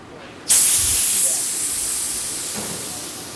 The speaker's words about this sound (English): That's the sound of 130 pounds per square inch of carbon dioxide releasing from a fermentation chamber.